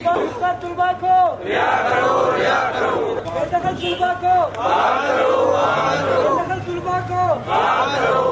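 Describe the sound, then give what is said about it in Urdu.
Students from the Baloch Students Organization chant slogans at a protest outside the Quetta Press Club. A loud crowd of voices shouts together in rhythmic call-like phrases, repeating and overlapping. “Press club Quetta کے باہر Baloch students organization کے زیر اہتمام اس مظاہرے میں شریک طلباء نے اپنے مطالبات کے حق میں نعرے لگائے۔”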